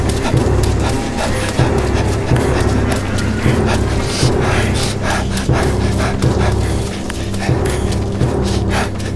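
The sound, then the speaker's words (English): A giant centipede approaching through a tunnel, rendered as a sound effect: dense, rapid clattering and scraping with a rough rhythmic texture, loud and continuous throughout with no talk. “The centipede senses your panic and accelerates. The only thing louder than your panicked breath is the sound of death approaching.”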